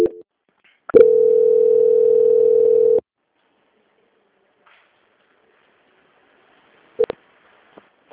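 Telephone line tone during a call transfer: a single steady, mid-pitched tone holds for about two seconds, then cuts to silence, with a couple of brief clicks near the end.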